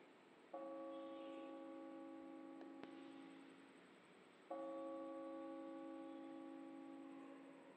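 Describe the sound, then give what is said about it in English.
Church bells ring out at Hart House at 3 a.m. Two separate strikes each leave a rich, humming tone that sustains for several seconds, fairly quiet over a faint background hiss. “It's 3 a.m. and the bells are ringing at Hart House.”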